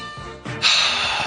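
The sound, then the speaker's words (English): A deep inhale taken as a stress-relieving breathing exercise: a loud, airy rush of breath that swells after a brief softer intake and holds steady for about a second, with no talking. “America, time to inhale,”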